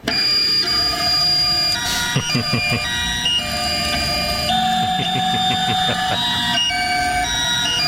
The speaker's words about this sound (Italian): ti faccio sentire come suona una stampante 3D. Eccola qua.